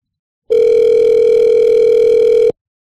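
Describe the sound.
A telephone tone on a call being redialled after reaching voicemail: one steady, unbroken mid-pitched tone that holds at even loudness for about two seconds, then stops cleanly, with no voices.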